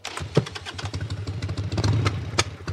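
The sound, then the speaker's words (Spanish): A motorcycle engine runs with a steady low rumble and light mechanical clatter, holding an even, unchanging pitch with no voices. “Voy en moto, dándome el aire en la cara.”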